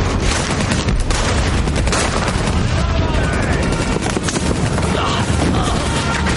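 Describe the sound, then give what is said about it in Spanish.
Machine gun fire from rebels cuts down Russian soldiers in a 2008 war drama, a loud, dense, unbroken clatter of rapid shots with shouting mixed in. “Los sublevados disparan con metralletas a los soldados rusos.”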